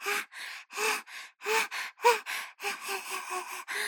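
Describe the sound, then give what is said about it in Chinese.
A human voice imitates a dog panting with its tongue out, producing many quick, breathy gasps in a steady rhythm that grow shorter and faster toward the end. “学小狗吐舌头喘气给你听”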